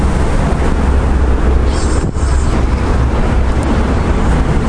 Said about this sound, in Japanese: 感度を落として収録してるんですが、それでも非常によく車の音が入ると。